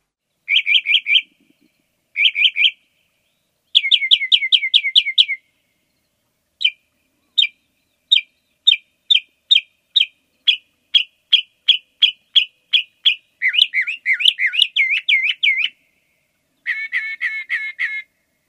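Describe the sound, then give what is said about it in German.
Northern mockingbird song: a long run of high, clear phrases, each a rapid series of repeated chirps. Some are tight trilled bursts, others evenly spaced single notes, and the phrases change in character from one to the next, heard alone. “Dann hier die Spottdrossel, die hat ihren Namen zurecht, das hört sich wirklich so ein bisschen spöttisch an.”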